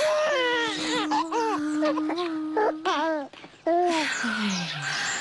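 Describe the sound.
A newborn baby cries in a home after a birth in the family's home village, giving loud, wavering, high-pitched wails in short repeated bursts over a steady low hum.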